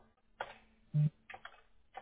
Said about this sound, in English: I got to type it in twice